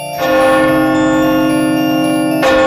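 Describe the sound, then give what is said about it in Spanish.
A clock strikes its last chimes of the day. A resonant bell tone rings evenly for about two seconds before a second strike starts. “el reloj comenzaba a dar las últimas campanadas del día.”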